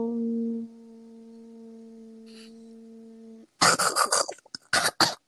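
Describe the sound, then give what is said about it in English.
Choking coughs from someone who has choked on spit or snot, a rapid cluster of harsh, sputtering bursts that break out suddenly after a steady low electrical hum. “I just choked on my own. What was that? I started choking on... I can't even tell if that was my spit or snot.”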